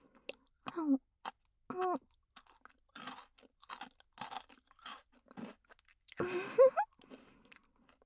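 Food is chewed and crunched in short, crisp bursts with pauses between them, quiet and close, mixed with a few soft murmured vocal sounds.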